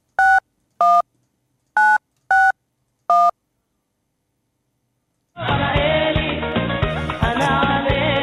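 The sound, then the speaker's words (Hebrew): A telephone number is dialed with DTMF keypad tones: five short, clean electronic beeps in an uneven rhythm, loud and alone, followed by a dense, continuous sound that starts after a pause. “הנה הוא מחייג אליו, וכך זה נשמע”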